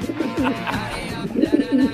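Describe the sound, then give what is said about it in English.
Pigeons cooing in a short run of low, throaty, rolling coos, a few phrases one after another, fairly loud and with no talk over them. “pigeons. Oh, no. Do you know pigeons?”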